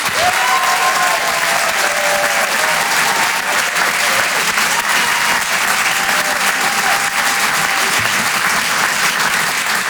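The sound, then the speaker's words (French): Loud audience applause at a live comedy stand-up evening, a dense and steady wash of clapping that holds at an even level for about ten seconds. “On peut l'encourager, faites du bruit s'il vous plaît pour Wari Nichen.”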